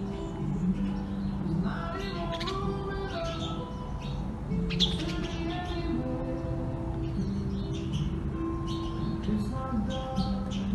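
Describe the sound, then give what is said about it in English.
Small birds chirping around a table, many short bright chirps and trills repeating over a steady murmur of background noise throughout. “I'm sitting at the table here with little birds. You see them?”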